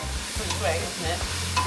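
Stirring of curry meat with garlic, cloves and bay leaves in a pan, with a steady sizzle of frying beneath a few scraping strokes.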